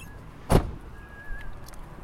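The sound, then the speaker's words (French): A car door shuts as people get out of the car, one sharp solid thump standing out against a quiet, steady background hum. “Aujourd'hui, deuxième épisode, on descend de la voiture.”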